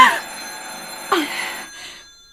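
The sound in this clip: An old-style telephone bell rings at midnight in two bright, metallic bursts, each fading away, with a faint tail after the second.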